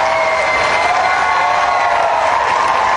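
A concert crowd at the Bonnaroo Music Festival claps and cheers for an encore after a set. The dense roar of applause and shouting stays loud and even throughout.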